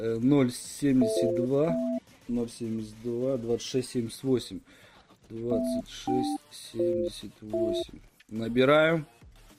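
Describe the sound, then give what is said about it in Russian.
Short keypad beeps of a telephone number being dialed, a run of brief tones in two bursts, mixed in with voices talking. “Набираем. Так, набор идет сейчас, ребят.”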